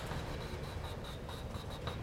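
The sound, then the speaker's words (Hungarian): A hand draws a dashed line on a polar diagram as a quick, steady series of short, scratchy strokes, evenly spaced and fairly faint, with no voice over them. “én most csak szaggatottan rajzolom ide”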